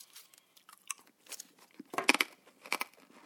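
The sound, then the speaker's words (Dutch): Crunchy chewing of peppermint candy: a few irregular crisp bites and crackles, with the loudest bursts clustered near the middle and again later, alone without talk. “Zit je nu al pepermunt te eten?”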